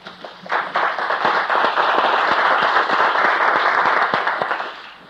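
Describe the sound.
Audience applause welcoming a speaker at a conference introduction. Dense, loud clapping rises quickly, holds steady and even, then tapers off near the end.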